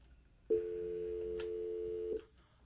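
A telephone call fails to go through and a busy signal sounds as a single steady electronic tone held for about a second and a half, then cutting off.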